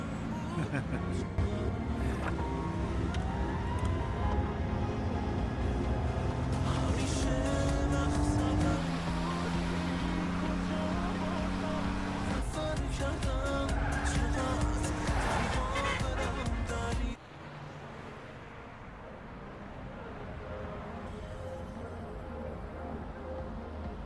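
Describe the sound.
A car being driven fast gives a steady loud engine roar with whining tones that climb and shift, then the sound drops abruptly and continues quieter.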